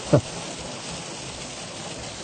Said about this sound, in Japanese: ちょっとやかましいかもしれませんね申し訳ありませんえらい今日は雨が降るけど